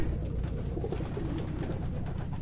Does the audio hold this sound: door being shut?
no